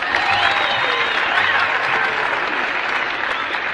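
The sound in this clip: Grand Ole Opry audience applauding a performer's welcome, a dense, loud, unbroken wash of clapping that holds steady throughout.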